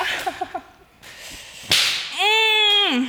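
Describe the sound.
A hand slaps someone's back once with a single sharp, loud crack. A few softer sounds come before it, and a sustained tonal vocal sound follows that drops in pitch at the end.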